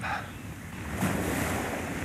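Sea waves wash in a steady broad roar of surf, with some wind noise blended in and no clear breaks.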